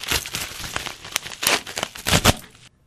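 Paper crinkles and tears as an envelope is opened at an awards presentation, a short burst of dry rustling and ripping that ends abruptly.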